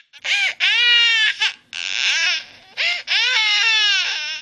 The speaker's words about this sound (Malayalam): അമ്മയുടെ ശക്കര കുട്ട കരയല്ലേടാ, അമ്മയുടെ പൊന്നുമുത്തല്ലേ. വാവ് ഉറങ്ങിക്കേ.